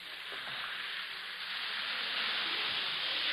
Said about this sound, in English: You folks at home know it's the sound of Alka-Seltzer merrily fizzing away in a glass of water.